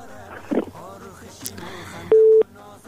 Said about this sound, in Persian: به خیالم که تماسشان قطع شد، متاسفانه نتونستن که جواب مربتن.